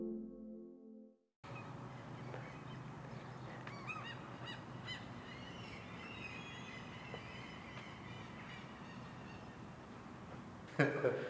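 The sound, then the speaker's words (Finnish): Gulls calling outside, a few honking cries rising out of a steady hiss of background noise, fairly faint throughout, with one louder call near the end. “Lokit siellä ulkopuolella pitävät omaa vetakkaansa”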